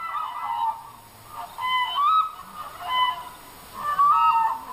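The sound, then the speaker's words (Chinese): Demoiselle cranes calling in flight over a village in Yunnan, China: repeated loud, honking, trumpeting calls in a few bursts, with several birds overlapping. “飞过来了，飞过来了，梭羽鹤飞过来了。”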